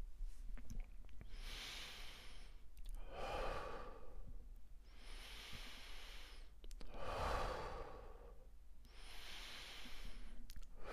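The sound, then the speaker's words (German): Slow, deep breathing in and out during a guided breathing exercise: a few long, airy inhales and exhales alternate at an even, unhurried pace, each a soft breathy rush, with no talking. “Lass dich nicht von meinem Atem irritieren, mach es in deinem Tempo, in deinem Rhythmus.”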